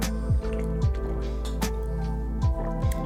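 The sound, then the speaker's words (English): Liquid Death canned water being drunk: five wet gulping swallows at uneven intervals, each a short squishy pulse, over a steady low hum with no talk. “Hey, I got Liquid Death here. Let me just drink that because I'm a little thirsty.”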